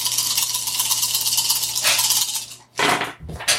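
Dice roll and fall off the table during a tabletop role-playing game. A continuous bright rattle is followed by a short pause, then two sharper clatters.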